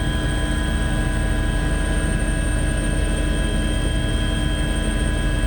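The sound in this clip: Helicopter engine and rotor noise over the sea during a search operation: a steady, loud, unbroken drone with dense hiss and constant humming tones throughout, and no voices.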